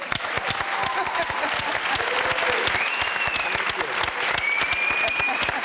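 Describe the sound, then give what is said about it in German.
Steady audience applause at a celebration of 20 years of the Cologne Tatort, a dense, even patter of many hands clapping that continues throughout. “Auch hier ein Glückwunsch. Den können wir direkt nochmal applaudieren.”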